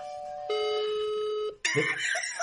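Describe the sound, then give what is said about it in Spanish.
Telephone ringback tone during an outgoing call: one steady electronic tone lasting about a second, then a short break and a burst of noisier sound. “Vamos a ver. Parece que da tono.”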